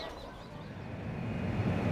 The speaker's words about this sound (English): I'm at the airport.